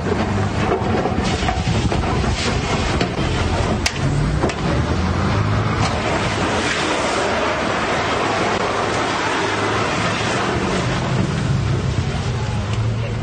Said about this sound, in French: On va écouter ça. Ok, la voiture bélier.